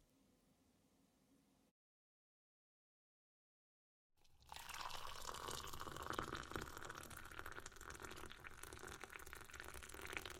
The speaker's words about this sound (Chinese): 我去倒一杯水